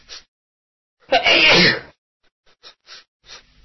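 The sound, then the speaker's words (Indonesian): A single loud, sharp sneeze stands alone, followed by a few short, faint sounds. “Doa ketika bersin.”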